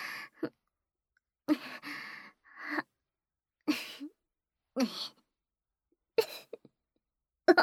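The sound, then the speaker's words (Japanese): Repeated breaths drawn in through the nose as sniffs: several short, breathy bursts separated by silence, some partly voiced like sighs or gasps. “何度も、何度も、鼻から、息、吸ってみ。”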